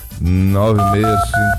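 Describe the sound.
Telephone dialing tones placing a radio call-in: a few short two-note beeps follow one another over a steady, loud low tone.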